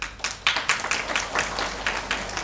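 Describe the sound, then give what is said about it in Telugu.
Scattered, hesitant clapping from an audience at a devotional Bhagavatam discourse: a handful of uneven, separate claps at moderate level rather than a full round of applause. “మీరంతా ఎంతో భక్తితో వింటున్నట్టు నాకు అర్థమైపోతుంది. ఎందుకంటే చప్పట్లు కూడా పక్కవాడు కొడితే గాని కొట్టలేని ఉత్తమ స్థితిలో గడిపోయారు కదా”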